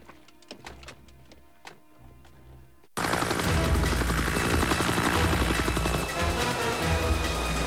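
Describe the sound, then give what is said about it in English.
A red and white helicopter patrols over woods: loud, steady rotor chop with a rapid pulsing beat that starts abruptly after a few seconds of scattered faint thuds and clicks. “The red and white chopper is still patrolling the woods.”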